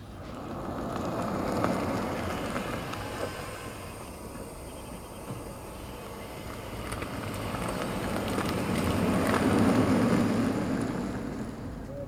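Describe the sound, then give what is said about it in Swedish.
An electric vehicle with no added sound approaches a pedestrian crossing and then drives away, heard only as a soft, broad rush of tyre and road noise that swells, eases off, then swells again. “ett elfordon helt utan ett pålagt ljud. Utan det är bara en inspelning och det är då ett fordon som rör sig mot ett övergångsställe och sedan kör iväg.”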